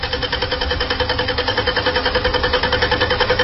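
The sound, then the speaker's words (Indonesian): A car engine cranks without starting, making a rapid, even chugging of regular pulses. The sound stays loud and unchanged throughout and never catches into an idle. “mobil tidak kunjung bisa starter. Ada apa dengan mobilku ini?”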